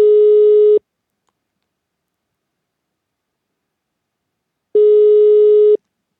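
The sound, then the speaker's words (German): An outgoing telephone call gives two steady ringback tones, each just under a second long and about four seconds apart, with silence between them. “Rufen wir bei einem Ortsbürgermeister an”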